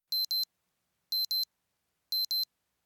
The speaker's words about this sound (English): When you hear this sound, turn the page.